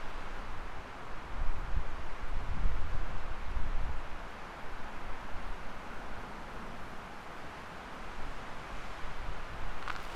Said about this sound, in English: It's quite windy now. The wind is somewhat behind me and somewhat to my left, coming up the street.